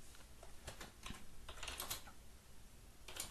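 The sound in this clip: Quiet typing of code on a computer keyboard, with irregular clusters of light, rapid keystrokes and short pauses between them, and no voices.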